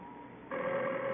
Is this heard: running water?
no